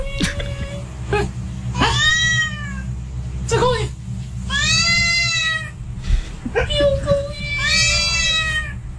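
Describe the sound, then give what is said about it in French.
A cat meows again and again in drawn-out, arching cries of varying loudness, some rising into higher wails, while people talk around them. “Alors, il dit un mot et il miaule plus ou moins fort.”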